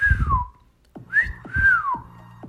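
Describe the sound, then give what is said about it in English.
A person whistles to mimic someone whistling at them from apartment balconies facing a pool. Three clear, fairly loud whistled glides: a falling note, a short rising note, then a longer note that falls away. “Well, someone whistled at me.”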